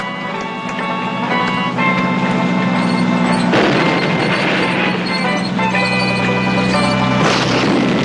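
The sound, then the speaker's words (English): Heavy-gauge tank cannon shots as three tanks crawl past a burning rail depot: a couple of deep booming blasts break over a steady, droning tonal background. “Oddball's tank pulls forward and rotates its heavy-gauge cannon straight ahead. The other two tanks follow. As all three crawl past the depot's flaming buildings and wreckage, they deliver a couple of more shots.”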